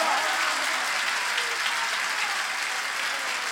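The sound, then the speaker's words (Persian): Audience applause, a dense, even clapping that holds steady and loud throughout. “تو دست بزن قربونت برم، اگه این صدا رو زیاد کنم صدا خودم هم نمیشنوم.”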